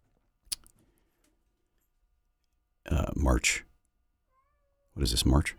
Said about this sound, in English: I have a cat meowing in the background.